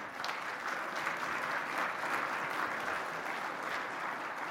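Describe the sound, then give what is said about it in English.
An audience at church breaks into warm applause to welcome guests, a dense and steady clapping that holds at an even level throughout. “Can we give these guys just a warm welcome?”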